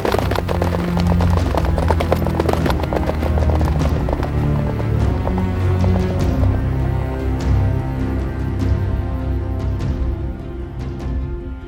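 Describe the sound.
Hooves clip-clop as horses are ridden off at the start of a ride: many loud, rhythmic hoof beats run continuously throughout over a steady, dense low background.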